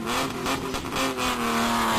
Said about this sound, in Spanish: Oviedo vibra con el motor. Llega el Rally Princesa de Asturias, Ciudad de Oviedo.